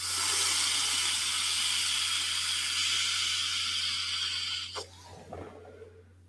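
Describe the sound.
A long, steady airy hiss of a draw on a SMOK Vape Pen V2 that runs for nearly five seconds and then cuts off, leaving a few faint soft noises.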